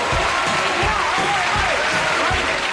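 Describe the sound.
Studio audience applause welcoming guests on the Tool Time set, a dense, steady wash of clapping that holds at an even loudness throughout.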